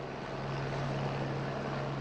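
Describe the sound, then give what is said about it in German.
Steady, faint drone of a helicopter circling in the sky above a film shoot outside an opera, a continuous even hum with a low steady tone and no voices. “Am Himmel kreist ein Hubschrauber.”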